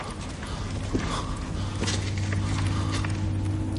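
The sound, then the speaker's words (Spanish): A few slow footsteps of a man walking in a dungeon land as soft thuds over a low, steady drone. “Un hombre camina despacio hasta colocarse frente a él.”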